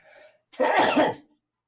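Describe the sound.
A single forceful sneeze brought on by allergies: a soft breathy intake, then one loud, explosive burst lasting about half a second, followed by silence.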